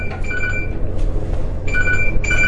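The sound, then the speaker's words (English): A government emergency alert sounding on a mobile phone: three short bursts of a shrill two-tone electronic signal separated by brief gaps, over a low background hum. “That one I don't have a choice on. That's a government page. Turn it on. It doesn't matter what my phone says. Pull the battery out.”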